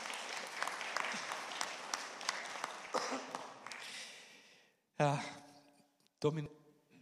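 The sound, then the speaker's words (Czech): A church audience applauds a boy preparing for baptism, with steady, dense clapping for about five seconds that then stops. A few brief voice sounds follow. “taky zaslouží potlesk”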